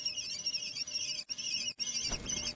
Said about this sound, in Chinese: 听到小红隼的叫喊，乌鸦有些犹豫，